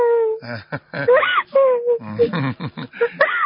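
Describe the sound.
A girl cries during a phone call that has just connected, with wavering wails and sobbing moans that rise and fall in pitch. The broken, uneven sound continues throughout, with breathy catches between bursts.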